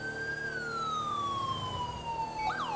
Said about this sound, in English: Try to use other sirens. They usually dive out of the way when we...